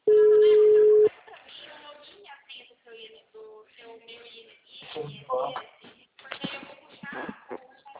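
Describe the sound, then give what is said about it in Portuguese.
Ringback tone of an outgoing telephone call: one loud, steady, mid-pitched tone lasting about a second, then people talking. “Tô ligando já.”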